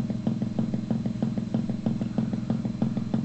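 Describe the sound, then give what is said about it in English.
Percussive synthesizer notes play with the voltage-controlled filter turned to its minimum setting: a steady, evenly spaced run of many dull, low thuds, muffled and lacking brightness, with no voices. “I've just decreased the voltage controlled filter to the minimum setting. And we've got our percussive sound again.”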